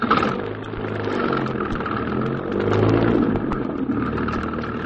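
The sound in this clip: A taxi cab's engine runs as the car pulls away, a steady mid-pitched motor hum with low rumble that swells slightly partway through, alone without voices.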